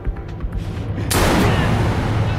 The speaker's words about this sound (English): A bullet is fired into the tortured man's chest.